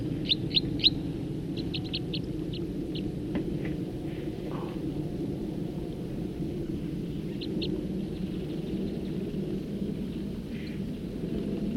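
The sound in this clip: Short, high chirps from a songbird: a quick cluster near the start and a couple more later, set over a steady low rumbling background.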